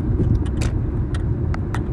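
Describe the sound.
A car driving along a mountain road gives a steady low rumble of engine and road noise throughout, with a few faint, brief ticks above it.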